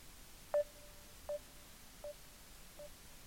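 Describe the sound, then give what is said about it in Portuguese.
Telephone ringing tone on an outgoing call, heard as four short, evenly spaced mid-pitched beeps, each with a faint trailing tone, quiet and alone. “Não, ele está a tocar. Vou dar aqui mais a oportunidade de 5 toques e depois desligo.”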